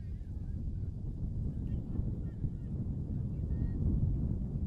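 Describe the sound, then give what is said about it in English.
Wind gusting outdoors during a game, heard as a loud, low, continuous rumbling buffet on the microphone that swells slightly toward the end. “all of a sudden the wind picks up again”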